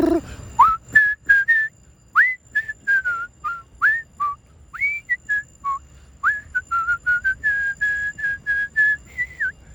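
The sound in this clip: A person whistles in imitation of a quarry's end-of-shift whistle, producing many short, clipped notes in a quick, uneven rhythm, several sliding upward, with no talk over them.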